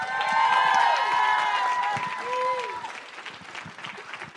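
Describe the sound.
An audience applauds to welcome two guests onstage: loud, sustained clapping with voices and cheers mixed in, easing off slightly toward the end.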